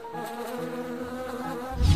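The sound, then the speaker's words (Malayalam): A swarm of bees buzzes after a beehive is broken open: a steady, dense droning hum with layered tones, moderately loud, ending in a heavier low rumble. “മുഗംബോ തേൻ കുടിക്കാനുള്ള അത്യാർത്ഥിയിൽ തേനീച്ചക്കൂട് പൊട്ടിച്ചുകൊണ്ട് ഒരബദ്ധം ചെയ്തു അത് കാരണം തേനീച്ചകൾ അവന്റെ കണ്ണുകളിൽ കൊത്തി കണ്ണു പൊട്ടിച്ചു”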